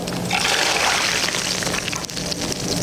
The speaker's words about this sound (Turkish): Her sofrada, her saatte, her öğünde tereyağı mutlaka vardır. Bizim. Hadi dökelim o zaman. Ben o sesi de dinleteyim.